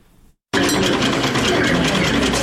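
A sewing machine in a tailoring training workshop starts abruptly after a brief silence, then runs in a loud, steady, unbroken whir.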